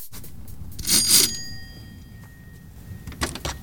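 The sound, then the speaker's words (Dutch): A doorbell rings at a house door on a street in a new-build neighbourhood: one bright ring whose tone hangs on and fades over about a second, heard over quiet background noise. “we bellen even aan”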